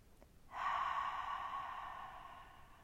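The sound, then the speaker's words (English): A single long open-mouthed exhalation, like fogging up a mirror, gives a soft breathy hiss that holds steady for about two seconds and slowly fades. It is quiet and heard alone. “To access this, take a breath out through the mouth as if you're fogging up a mirror.”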